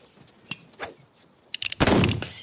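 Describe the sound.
Gunshots during target shooting: two sharp, isolated cracks come first, then a quick cluster of reports runs into a louder, denser burst of noise that carries to the end.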